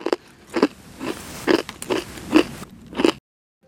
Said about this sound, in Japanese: かなり噛み応えがありますね枝豆の甘さと程よい塩加減見た目よりしっかりとしたおせんべいですね